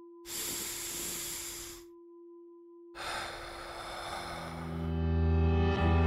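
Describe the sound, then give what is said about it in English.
A deep breath in and out: a long airy inhale, a short pause, then a longer hissing exhale, all over a faint sustained tone. “Let's take a deep breath. Wherever you are, feel those ribs expand, that chest lifts towards your chin. Let's do it now.”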